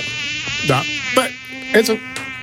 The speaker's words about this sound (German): echt Scheißviecher, diese Mücken.